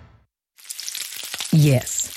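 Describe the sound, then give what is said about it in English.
Bacon sizzling: after a brief low sound and a moment of silence, a crackly, popping hiss starts and carries on to the end, with a single short spoken word over it partway through. “It's the sound of bacon sizzling.”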